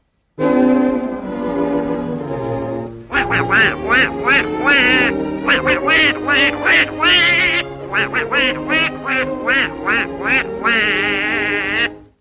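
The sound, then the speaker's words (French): A cartoon duck's raspy, nasal quacking voice, performed by a voice actor. A drawn-out opening cry leads into a long run of rapid, choppy quack bursts. It is loud and alone. “Le canard Donald est à l'honneur cette fois-ci.”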